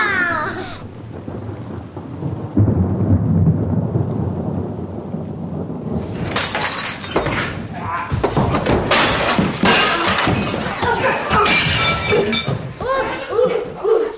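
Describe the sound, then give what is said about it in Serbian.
Storm at sea, heard as if from aboard a ship: a low rumbling of thunder and wind, then a dense, loud rush of heavy rain with crackling bursts that continues to the end. “Uhvatila ih bura na moru, vetar i kiša. Hoćete li da vam pokažem kako izgleda bura na moru i u brodu?”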